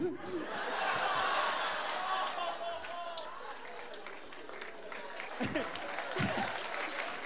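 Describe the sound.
Audience applause and cheering at a live comedy show, a dense, fairly faint wash of clapping with scattered laughter and voices throughout.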